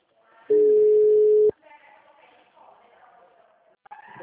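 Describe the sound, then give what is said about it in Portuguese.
A telephone line tone after a dropped call: one steady, level tone holds for about a second, then cuts off. Quiet talk and a little movement follow. “caiu a ligação, ficou muda, eu fiquei falando alô, alô.”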